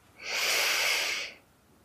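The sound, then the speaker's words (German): A person takes one deep breath in during a guided breathing exercise. The inhalation lasts about a second and is airy and steady, rising quickly to full strength and then tapering off into quiet. “Atme tief ein,”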